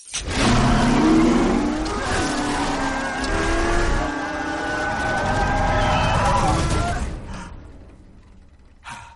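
A car engine starts and revs, climbing through rising surges of pitch into a loud, sustained roar that eases off toward the end.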